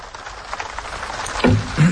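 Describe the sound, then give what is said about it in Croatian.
Rain falls in a steady, dense hiss with small ripples of louder patter, heard alone for a couple of seconds. “Mračno je, jel da? Ma da. Vražija kiša.”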